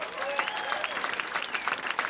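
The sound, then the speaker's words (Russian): An audience applauds in a dense, continuous wash of many hands clapping. The clapping stays at a fairly steady loudness throughout. “Спасибо, спасибо за аплодисменты.”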